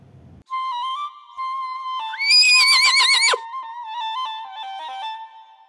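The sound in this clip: A horse whinnies in one long, loud, quavering neigh that rises sharply, trembles and then cuts off, set among sustained steady tones.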